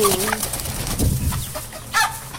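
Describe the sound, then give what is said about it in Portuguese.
A hen clucks to call her chicks, giving a few short, uneven calls over a rough, noisy background. “Chamando os pintinhos.”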